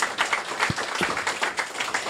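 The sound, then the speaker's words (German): Audience applause after a presentation at a youth hackathon: many hands clap in a lively, crackling patter, steady and moderately loud with no voices on top. “Danke fürs Zuhören. Wenn ihr noch Fragen habt, könnt ihr die uns beim Apero stellen. Großer Applaus.”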